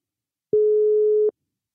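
A telephone line tone sounds while a call is being placed: one steady, clean electronic tone lasting under a second, with silence before and after.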